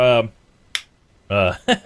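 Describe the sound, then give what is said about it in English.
Fingers snap once, giving a single crisp click in a short pause between stretches of people talking. “had to do the little snap my fingers.”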